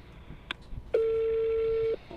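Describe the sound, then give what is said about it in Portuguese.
A steady, mid-pitched telephone line tone heard while redialing a call. A short click comes first, then the tone holds for about a second. No one talks over it. “Pera aí, vamos ligar de novo.”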